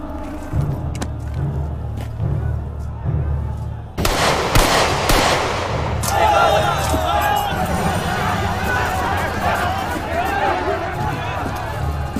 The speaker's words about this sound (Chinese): 谁打的枪？